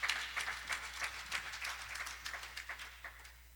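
A church audience applauds a pastor welcomed to preach at a morning service, with faint, steady clapping of many hands that slowly thins.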